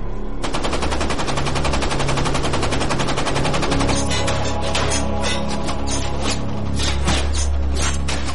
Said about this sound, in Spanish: El Hayasaki disparó a la cubierta del Growler con todas las armas que tenía.